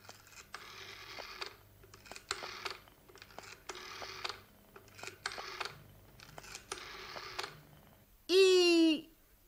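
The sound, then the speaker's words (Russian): A telephone number is dialed: several runs of quick mechanical clicks with short pauses between, then a short, loud warbling tone. “Не беда, ведь у него есть телефон. Снимаете трубку, набираете номер.”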